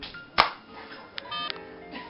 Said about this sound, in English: But I've got my therapist on speed dial to deal with these relapses. As a matter of fact, I can call her now.